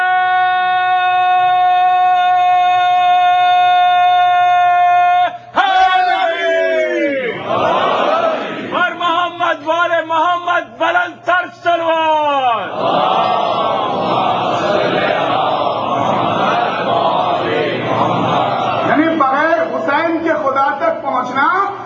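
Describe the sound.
A crowd at a religious gathering shouts a slogan in unison after a long, steady held tone. Many voices roar in loud bursts separated by a few short breaks, and the shouting continues to the end.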